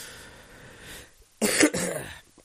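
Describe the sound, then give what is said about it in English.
A wet cough brings up phlegm: two quick, harsh bursts close together, loud against an otherwise quiet background. “Oh, okay, that was some phlegm come up.”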